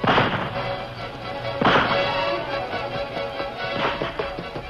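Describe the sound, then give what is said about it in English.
Rifle gunfire in a radio drama shootout among rocks and boulders: three sharp, cracking shots spaced over several seconds, with a steady rumbling background between them and no speech. “Take your rifle and keep firing at him. Make him take cover.”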